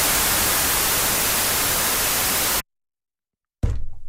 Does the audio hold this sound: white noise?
yes

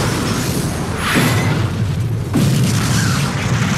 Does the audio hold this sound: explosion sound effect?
yes

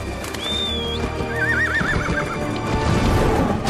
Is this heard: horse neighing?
yes

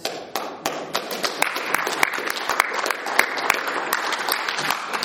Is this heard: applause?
yes

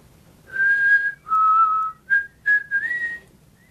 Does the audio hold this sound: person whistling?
yes

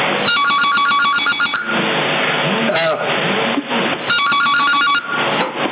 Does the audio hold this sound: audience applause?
no

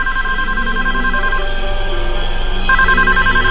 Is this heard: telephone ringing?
yes

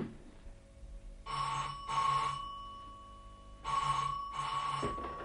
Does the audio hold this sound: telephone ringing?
yes

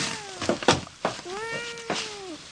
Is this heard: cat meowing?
yes

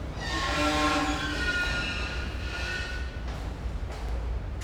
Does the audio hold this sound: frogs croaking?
no

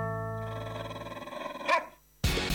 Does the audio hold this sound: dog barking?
yes

